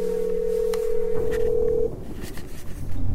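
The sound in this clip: Telephone line tone while calling an old number: a steady, even tone that stops partway through, leaving a rough, noisy hiss on the line.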